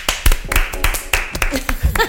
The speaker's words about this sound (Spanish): Un aplauso.